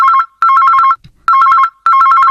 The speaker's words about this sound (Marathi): मोहितेंच्या घरात टेबलावरचा मोबाईल वाजतो.